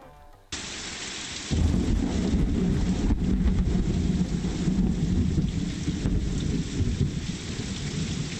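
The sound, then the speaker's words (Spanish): A thunderstorm: heavy rain hisses steadily while deep thunder rumbles roll underneath. The storm starts abruptly after a brief quiet moment, swells louder a second later, then stays loud and sustained with no voices. “Es una tormenta.”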